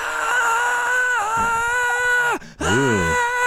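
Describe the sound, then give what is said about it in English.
A voice imitating a girl's scream: a sustained high, strained wail lasting about two seconds, then a brief break and a shorter wavering cry. “and just screams.”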